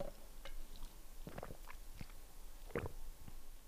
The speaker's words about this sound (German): Stanley-Becher. Ich trinke mehr.